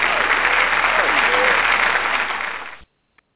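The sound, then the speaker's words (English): Audience applause breaks out for a live performance as a dense, loud wash of clapping that holds steady for under three seconds, then cuts off abruptly into near silence. “that needs a round of applause. Come on.”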